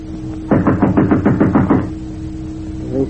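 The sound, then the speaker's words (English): Knocking on a door: a quick, evenly spaced run of many firm raps, loud over a low steady hum, followed by quiet. “a knock sounded on the door”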